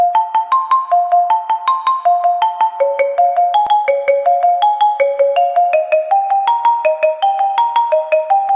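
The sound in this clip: Telephone ringing while a call is placed, an electronic melody of many short, bright tones stepping up and down in a steady, repeating rhythm, alone and clear with no voices.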